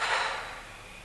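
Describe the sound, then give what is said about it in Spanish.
A single deep exhalation during a guided breathing exercise: a soft, breathy rush of air that starts full and gradually fades away. “Cerramos los ojos, hacemos una gran inspiración. Exhalamos todo el aire viciado que tenemos en los pulmones.”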